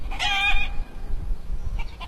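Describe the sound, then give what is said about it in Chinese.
Hens clucking in a farmyard in a mountain village: one loud, harmonic call near the start, then a couple of faint short clucks over a low, steady rumble. “走在陶棚村的山路上，可以听到远处农家院子里母鸡的叫声”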